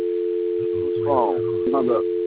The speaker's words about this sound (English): He's got a dial tone.